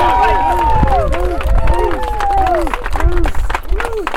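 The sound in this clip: A crowd at a political event in Hamburg, on the Lake Erie shore in New York, claps and cheers to welcome the next governor of the state: dense, continuous applause with loud whooping, wavering voices over it.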